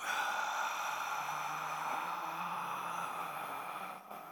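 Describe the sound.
A long, forceful exhale pushes all the air out of the lungs, as done as a breathing exercise before preaching; a steady, breathy rush of air holds for about four seconds before tapering off.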